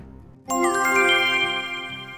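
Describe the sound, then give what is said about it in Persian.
A mobile phone message notification sounds as a bright, tinkling chime that starts suddenly after a brief near-silence, then rings on steadily with a shimmering tone until the end. “همین موقع گوشی سارا میلرزه، پیام از نسترنه”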